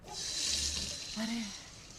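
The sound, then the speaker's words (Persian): A running tap pours as hands are washed, a steady, soft hiss of flowing water that stays fairly quiet throughout. “دستت کثیف شده، برو بشور.”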